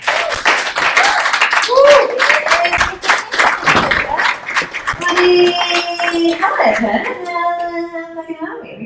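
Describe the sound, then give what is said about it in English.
Audience applause welcoming a comedian from Melbourne onto the stage at a festival show: dense, steady clapping with voices mixed in, staying loud throughout. “So please put your hands together and make her feel welcome.”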